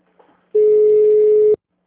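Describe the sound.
A mobile phone call rings out unanswered: one steady, flat ringback tone lasting about a second, loud and clear, after a faint short noise.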